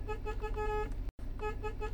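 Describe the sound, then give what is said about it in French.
A delivery van's horn honks in a village: two long, steady, bright blasts, separated by a brief break, with nothing else heard. “Alors de là, on va klaxonner un peu pour voir s'il y a quelqu'un.”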